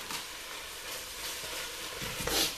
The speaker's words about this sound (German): Also, die Zwiebeln sind heiß, dann kommen jetzt da mal die Champignons mit rein.